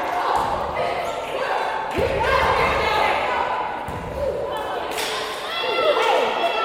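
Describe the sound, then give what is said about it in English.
A basketball is dribbled at the free throw line during a Clinton Lady Golden Bears vs Salem game, with a few dull, spaced bounces heard under steady play-by-play commentary. “Sweating at the line. She dribbles.”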